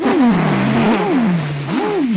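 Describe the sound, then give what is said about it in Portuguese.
Race car engines whine past, their pitch repeatedly climbing and dropping as they rev, a loud, tonal sweep that rises and falls a few times without any talk. “Ah, mas que corrida, rapaz, que corrida ótima, aqueles carrões passando.”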